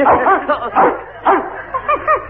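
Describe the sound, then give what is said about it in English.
A playful dog, licking and pawing at someone, gives a quick run of short, bright yips and barks with brief gaps between them. “Gee, he likes you. He's licking your ankle. Oh, don't do that, doggy.”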